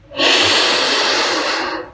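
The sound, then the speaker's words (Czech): A single long, steady breath from a guided breathing exercise that pairs a full-body inhale with an exhale through the mouth: a loud, airy rush that swells quickly, holds evenly, then fades, with no talking. “A přidej výdech ústy. Nádech do celého těla.”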